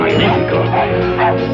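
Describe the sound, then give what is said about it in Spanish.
A dog barks and yips through the continuous din of a brawl on a theatre stage, its calls dense and overlapping with the surrounding commotion from start to finish. “Un perro.”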